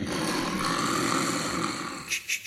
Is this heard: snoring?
yes